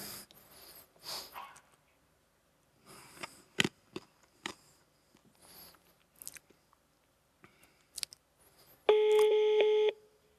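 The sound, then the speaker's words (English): A phone receiving a forwarded call gives a single steady electronic ring tone near the end, following faint scattered clicks and handling noises. “and this phone is ringing, right?”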